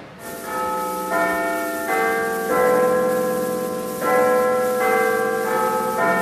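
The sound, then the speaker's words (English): Big Ben clock bell in London chiming: a slow series of deep, resonant strikes, each ringing on and overlapping the next in a long sustained wash of tone, with no voices. “Britain and France going to war with Germany, the archive recordings reveal how Big Ben was sometimes replaced with a recording to confuse German bombers”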